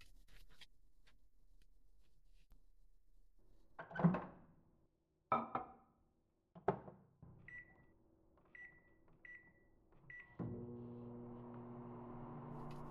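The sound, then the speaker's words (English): A microwave oven being started to make popcorn: a few thunks as the door and food are handled, a string of short high beeps, then a steady humming drone with a low buzz as the oven runs. “while I'm waiting, I'll just put some popcorn on.”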